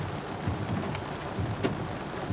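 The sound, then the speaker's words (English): Heavy rain falling outside, a steady dense hiss of drops with a few brief brighter spatters, continuous and fairly loud throughout. “Goodness. It is raining. Hopefully it's not going to be raining this hard tomorrow.”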